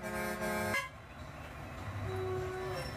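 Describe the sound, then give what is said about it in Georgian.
Car horns honk in traffic on a cramped, crowded bus ride: a long, loud blaring horn blast opens, then a quieter, single-pitched honk sounds later over a low traffic rumble. “თან ეს გამონაბოლქვი და საყვირები ტვინში გირტყამს.”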